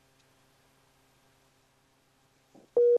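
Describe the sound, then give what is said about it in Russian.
A single loud, steady beep tone on a phone line sounds near the end, just after a faint, short burst of noise. Near-silence with a low hum fills the rest. “у нас на связи все в порядке? Просто я слышу какие-то гудки.”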